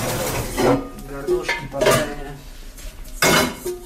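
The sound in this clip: Pots and pans clatter during cooking of chicken and fries, with a few sharp metallic clanks and knocks spread across a few seconds against a low background.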